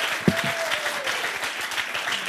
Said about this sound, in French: On les applaudit. On ne fait qu'applaudir ce soir. Bravo.